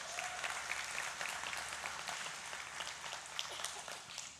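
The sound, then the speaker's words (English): Faint, steady clapping from an audience applauds a couple's 23rd wedding anniversary. Dense, even hand claps blend into a continuous patter throughout, with no voices over it. “I'm going to give them a little hand.”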